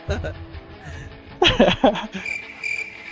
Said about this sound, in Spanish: Sí, grillos